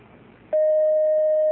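A telephone signals an incoming call: after half a second of low hiss, a loud, steady electronic tone at one pitch starts abruptly and holds unbroken to the end.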